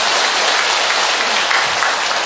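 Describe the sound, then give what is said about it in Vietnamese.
Applause from an audience at a church gathering. Dense, even clapping runs steadily through the whole clip, with no voices over it. “Rồi, chúng ta một tràng pháo tay thật lớn thưa anh chị em.”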